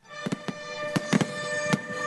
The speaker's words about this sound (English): Music accompanies a fireworks display set off behind an old German gun battery overlooking Omaha Beach.